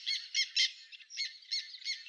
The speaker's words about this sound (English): The black tern, Clydeonias niger, is a member of the family Laridae.